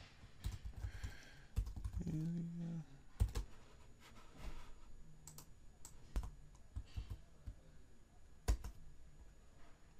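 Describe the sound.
Typing on a computer keyboard while a message is entered, with many soft, irregular clicks and a few sharper keystrokes, faint and alone.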